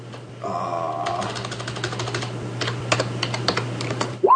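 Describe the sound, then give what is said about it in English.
Typing on a computer keyboard: a rapid, irregular run of light plastic key clicks over a steady low hum, with a brief tonal sound near the start, and no talk. “I'm sorry, I typed that wrong.”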